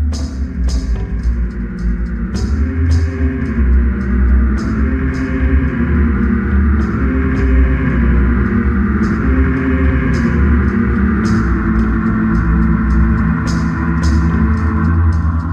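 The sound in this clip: Temple music track from a Nintendo 64 video game, the revised version in which the prayer chants are replaced by samples resembling low-pitched voices echoing through temple halls. A steady, continuous low drone runs under sharp, repeated percussive hits, with no speech.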